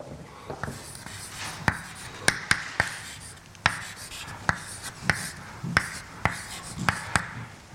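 Writing on a board during a lecture on water and ions: many sharp, faint taps and scratches in an uneven rhythm over soft background noise, with no voices.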